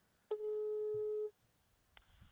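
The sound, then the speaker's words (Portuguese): A telephone ringback tone plays while a call goes out to a small freight hauler. It is one steady, mid-pitched electronic tone of about a second, then quiet, then the brief onset of a second tone near the end. “eu tô pensando em, em dar uma ligadinha para esse cara do carreto, só para falar para ele como é que ele tá dirigindo”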